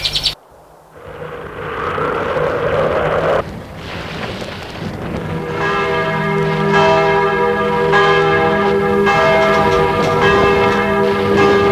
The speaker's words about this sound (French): Il sort de la camionnette et sonne au portail.